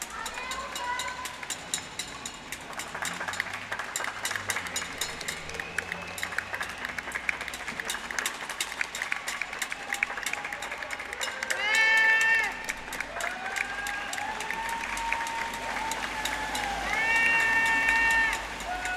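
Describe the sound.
People at windows above a street clap, cheer and bang pans in an 8 pm tribute to healthcare workers, a dense continuous clatter of rapid claps and shouts with a few high whistling tones.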